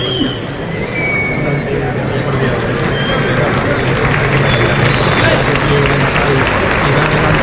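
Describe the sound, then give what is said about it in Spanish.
A bullfight crowd applauds the bullfighter Víctor Hernández with loud, steady, dense clapping that holds at an even level for the whole stretch without a break. “El público que anima a Víctor Hernández.”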